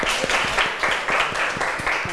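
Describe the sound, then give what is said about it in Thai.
Classroom applause for a student who gave a correct answer: many hands clap in a steady, fairly loud patter that continues for the whole clip. “ถูกต้องนะคะปรบมือเพื่อนหน่อยค่ะ”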